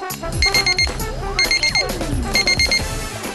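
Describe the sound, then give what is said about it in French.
A high electronic beep signal from an electronic cooking thermometer, sounding when cooking is finished. Quick beeps come in three separate bursts, with other sounds running underneath. “une fois terminée, vous en serez averti une fois de plus par un signal sonore.”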